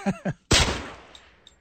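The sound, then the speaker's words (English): A single 9 millimeter gunshot: one sharp, loud crack that hits at full force, then a long, steadily fading decay tail. “Yeah, 9 millimeter, and a lot of it depends upon where it was recorded and in what acoustic surroundings the gunfire was”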